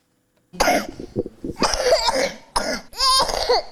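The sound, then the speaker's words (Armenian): A three-year-old child with an acute respiratory infection in a prolonged coughing fit: harsh, hacking coughs in three clusters after a short silence, broken by strained, wheezy breaths. “մինչ երեխայի մոտ հազի հերթական երկարատև նոպան է սկսվում”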